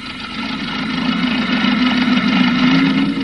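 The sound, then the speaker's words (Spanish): Engine of an old 1920s car running as the car sets off, a steady low rumble that grows slightly louder, with no voices. “Tira ligeramente del cable regulador y el automóvil comienza a andar.”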